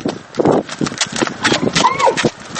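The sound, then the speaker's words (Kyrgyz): Clip-clop of horse hooves as a boy rides a horse, many quick, loud hoofbeats in an uneven rhythm throughout. “Алдыбыздан ат минип төсүн жетелеген бала чыкты.”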